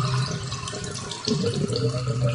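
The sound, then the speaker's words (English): Water running through household drains: a steady rushing and gurgling flow that continues throughout at moderate loudness, with a low hum beneath it. “Is that what you hear from your drains?”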